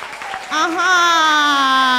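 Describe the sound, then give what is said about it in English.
Applause from students at a school promotional event, a dense patter of clapping under a loud, long, steady held tone that starts partway in and continues to the end. “can you clap for Samoa Company Limited?”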